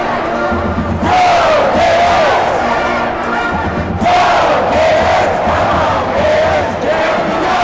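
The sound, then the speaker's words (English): A football stadium crowd roars from row 80 of the north end zone, a loud sustained wall of cheering that surges twice, with shrill yells rising above the roar. “But on row 80 in the north end zone, when the crowd goes wild,”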